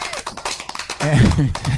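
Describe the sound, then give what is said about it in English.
A person gives a short run of quick, light hand claps, a brief flurry of sharp taps. A man's voice then starts talking over the end. “Okay, can I give you a clap for that? You definitely can. I can give you a clap.”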